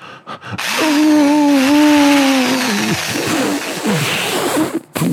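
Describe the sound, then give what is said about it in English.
A power drill is switched on and gives a loud, steady, whining motor hum. The hum then winds down and gives way to rough, noisy scraping sounds. “I just super glued my penis to a power drill. It should be dry now. I'm gonna turn it on.”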